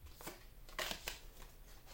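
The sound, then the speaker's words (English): Tarot cards are drawn from a deck with a few soft, papery flicks and slides. The sound is faint and sits over a low background hiss. “I'm going to take, hold on, these two cards. Okay, so I got the deck”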